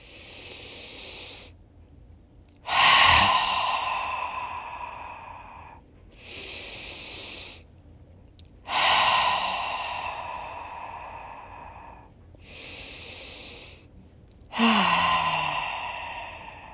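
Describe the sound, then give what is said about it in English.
Deep breathing in a seated relaxation exercise: a quiet inhale, a pause of silence, then a loud, hissing exhale, repeated three times at an even, slow pace with no talking. “We're going to inhale and pause and exhale loudly like we do 3 times.”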